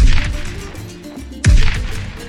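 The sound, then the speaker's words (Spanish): Gunfire in a volley strikes the outer wall of a wood and brick barricade. Two loud, sharp cracks each trail off into a decaying rumble. “Una granizada de proyectiles golpea la pared exterior de la barricada, haciendo saltar partículas de madera, de ladrillos, de tepalcates.”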